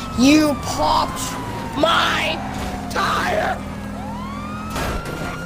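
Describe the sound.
Police car sirens in the video game GTA V wail in repeated rising and falling sweeps, sounding again and again beneath people talking over the game.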